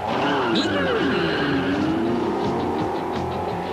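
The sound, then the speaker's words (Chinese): Formula One race cars roar in a Grand Prix race, a loud continuous engine whine with sweeping, shifting pitch and squealing tyres throughout. “演义世界格兰披治一级方程式大赛而家开始啦！”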